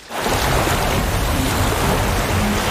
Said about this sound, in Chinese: 是冰墙， 水来了， 让冰墙挡走